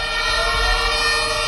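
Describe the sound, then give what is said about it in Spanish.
Fire engine sirens sound as firefighters arrive at a hotel building fire that began during welding work on a ground floor under construction. Several steady, layered siren tones hold over a low engine rumble for the whole short stretch. “Este es el sonido de esa llegada de los bomberos.”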